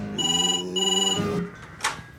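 A home telephone rings in two bright, trilling bursts with a short gap between them, followed after a pause by a brief click.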